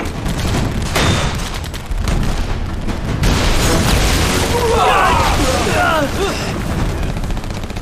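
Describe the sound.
Artillery guns firing and shells striking a target, a few heavy booming bursts in dense, continuous loud rumbling noise, with people talking over it.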